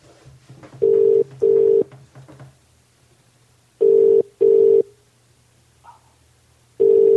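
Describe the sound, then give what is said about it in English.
Telephone ring tone in a public phone box: steady electronic buzzes in pairs, two full double rings and the start of a third, with faint low murmur between them. “10 minutes it took this one to answer. For those of you listening, this is a public phone box.”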